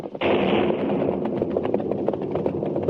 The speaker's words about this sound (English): They used blasting powder. It's so late. Today's work should be over.